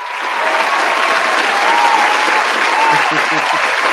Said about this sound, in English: Oh, my God. I got the applause right here.